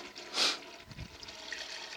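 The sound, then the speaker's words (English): A urinal flushes in a men's restroom, giving a faint, brief rush of water followed by a low, soft trickle. “Can you hear that? I'm flushing the urinal.”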